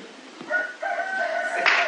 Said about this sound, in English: And that cock crows three times.